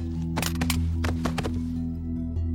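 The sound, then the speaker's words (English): Gunshots in a radio drama: a few sharp, loud cracks in quick succession over a steady low drone, with no voices during the shots. “He shot through your coat and you shot through his head?”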